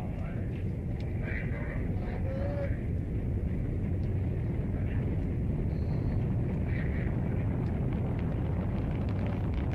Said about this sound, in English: More rocket sounds.